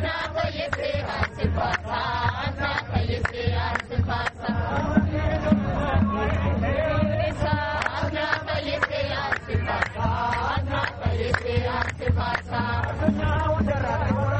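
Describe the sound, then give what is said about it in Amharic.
Crowd gathered for a religious festival celebration, a dense, continuous mass of many voices that stays at an even, fairly loud level throughout. “ይሄ ሁላ ህዝብ ይህን በዓል ለማክበር ነው የወጣው። ሃይማኖታዊ በዓል ነው።”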